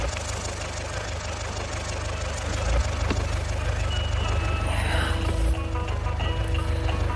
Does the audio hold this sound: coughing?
no